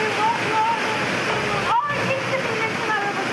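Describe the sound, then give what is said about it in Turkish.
Flood water rushing through city streets makes a loud, steady roar of churning water that holds level throughout without pause. “Caddeler ve sokaklar nehre döndü. Sel suyu önüne çıkan ne varsa sürükledi.”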